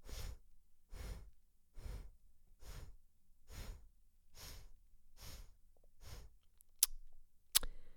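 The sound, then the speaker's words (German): Nasal breathing from an alternate-nostril breathing exercise: eight sharp, soft breaths through one nostril at a steady, quick rhythm, followed by two brief sharp clicks. “Einatmen rechts. Ausatmen links.”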